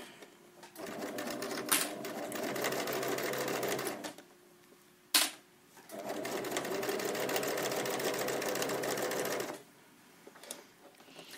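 A sewing machine stitches the last seam of a garment in two long, steady, fast-whirring runs, separated by a pause marked by a single sharp click, with a soft rattle trailing at the end.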